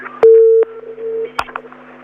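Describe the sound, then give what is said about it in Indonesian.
A telephone tone sounds after a dropped call: a steady low beep, loud for about half a second, then weaker for a moment more, followed by a few faint clicks. “Gimana, gimana Bun? Halo. Oh, udah putus ya.”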